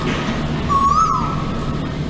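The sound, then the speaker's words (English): One whistled note from an Asian koel, clear and mid-pitched, rising slightly and then dipping, standing out above a steady background hum. “That is the call of the Asian koel, also known as the uwu uwu bird”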